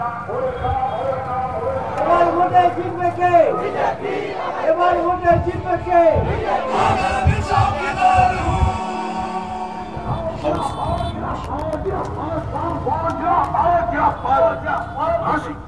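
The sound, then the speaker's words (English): A crowd chants slogans at a political rally on a hot afternoon, a dense mass of voices shouting in loud, steady bursts throughout. “all keeping up the faith by chanting slogans.”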